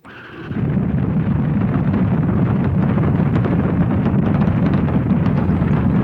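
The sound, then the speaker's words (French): Ariane rocket engines ignite at launch in an aborted liftoff, a hold-down hook fault keeping the rocket fastened to the ground structure. A deep, loud roar swells within the first second, then holds steady and heavy. “Les moteurs s'embrasent, mais la fusée ne parvient pas à s'arracher du sol.”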